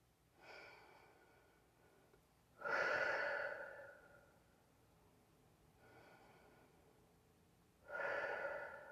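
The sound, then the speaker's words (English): Deep breathing during a calming exercise: a softer inhale through the nose followed by a louder, breathy exhale through the mouth, repeated twice in a slow, even rhythm with no talk. “We're going to inhale through our nose and exhale through our mouth.”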